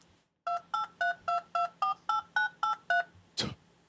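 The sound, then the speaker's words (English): Touch-tone dialing beeps place an internet video call: eleven short, evenly spaced dual tones ring out in a steady rhythm, followed by a brief, noisy burst. “Oh, you're just dialing him in. Yeah, cool. I think he's connecting now. Skyping him in.”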